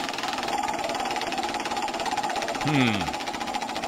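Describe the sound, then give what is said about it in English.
A spinning prize wheel makes a rapid, steady ratchet of clicks that runs without a break, and a voice briefly sounds near the end. “I believe it's your turn to spin the wheel. So go ahead. Do it.”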